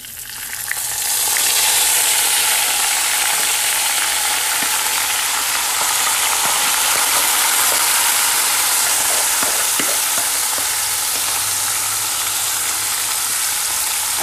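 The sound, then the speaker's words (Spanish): Rice and noodles sizzle as they are fried and stirred together in a pan, a loud, steady frying hiss running throughout with scattered light scraping clicks from the stirring and no voices. “colocando nuestro arroz limpio y lo ponemos a sofreír un poquito con los fideos. Vamos revolviendo,”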